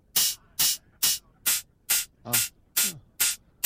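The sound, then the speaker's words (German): Synthesized hi-hat hits shaped by a high-pass filter: eight short, bright, hissy bursts in an even, steady rhythm, with near silence between each hit. “Und wenn ich so eine Hi-Hat rausmachen will, muss ich natürlich einen Filter auf, also Highpass.”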